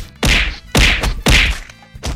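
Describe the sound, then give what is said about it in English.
A person is being hit with loud, punchy thwacks: four heavy blows land at an even, steady rhythm, each a sharp smack with a dull thud beneath it, with no voices. “Stop! Stop! Why are you hitting me? Please stop!”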